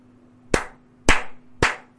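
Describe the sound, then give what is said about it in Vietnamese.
Someone claps their hands three times. The sharp, evenly spaced claps stand out over a faint steady hum. “Giọng nói vừa dứt, liền nghe có người vỗ tay mà nói:”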